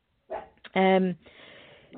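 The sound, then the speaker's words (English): A dog gives a loud, drawn-out tonal bark, with a person talking before and after it. “Sorry if you can hear my dog barking.”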